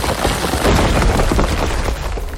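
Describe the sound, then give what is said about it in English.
A loud, crashing, rumbling impact effect for the boulder bash attack move in a turn-based video game battle. It stays dense and heavy without a break for the whole stretch. “Foe character used boulder bash.”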